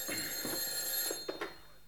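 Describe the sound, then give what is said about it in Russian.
A telephone bell rings quietly and steadily, with a few brighter bursts of ringing near the end and no voices. “телефон гудзіць”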